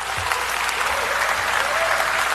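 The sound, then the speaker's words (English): Legislators in the Philippine House of Representatives applaud after endorsing an impeachment motion: dense, continuous clapping holds at a steady, even level for the whole stretch. “In the end, legislators endorsed the motion to impeach and applauded the decision.”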